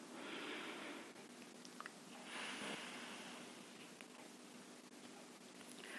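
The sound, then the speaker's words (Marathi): Deep breathing during a guided breathing exercise: slow, airy inhales and exhales come as a few long, soft hissing breaths over a faint, steady background. “परत श्वास घ्या परत एकदा”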